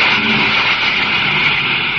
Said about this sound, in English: Give me braking rockets full. Braking rockets full.